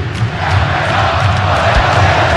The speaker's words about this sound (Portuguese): já que a torcida gritando o nome do Everson agora